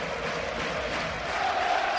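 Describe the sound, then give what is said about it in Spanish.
Basketball arena crowd cheering as fans react to a player's play during a game: a steady, broad roar of many voices holding at an even level throughout. “Darío Brizuela que levanta el público y así reacciona.”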